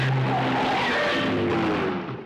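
A Pobeda car skids to a halt with loud, sustained tire squeal, wavering squealing tones over broad road noise that tails off at the end.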